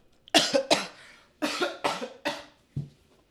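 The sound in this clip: A person clearing the throat with a series of short, harsh, rasping bursts in two quick groups, fairly faint and with no speech.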